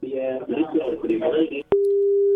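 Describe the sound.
A steady telephone disconnect tone after the caller hangs up: a single unbroken electronic tone sounds on its own right after a stretch of voice ends.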